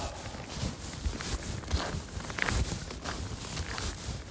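Footsteps of someone out on a walk, with many steady steps that thud softly over a constant rustling, hissy background.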